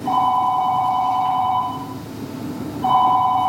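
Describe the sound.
A telephone rings loudly with a warbling electronic double tone in two bursts: a long ring, a short pause, then a second ring that is cut off. No voices.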